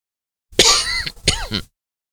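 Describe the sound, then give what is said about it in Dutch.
A short coughing fit from someone getting worked up, with two rough, harsh bursts of coughing a fraction of a second apart, each breaking into smaller hacking pulses, heard alone. “Kijk, zodra ik me opwind, krijg je dit vervelende gehoest.”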